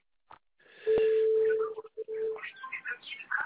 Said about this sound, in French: C'est vous que ça sonne chez vous, là? Non, non, ouais, c'est mon portable.